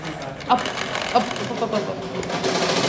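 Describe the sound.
A sewing machine stitches fabric, producing a continuous rapid mechanical whir with a couple of louder knocks as it runs.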